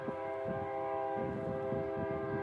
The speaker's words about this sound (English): We'll wait for the train to go by.